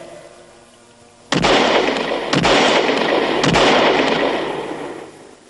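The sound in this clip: Three loud revolver shots from a six-chamber gun, spaced about a second apart. Each is a sharp crack followed by a long rumbling roar that sustains and then fades, with no talking.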